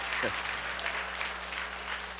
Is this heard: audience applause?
yes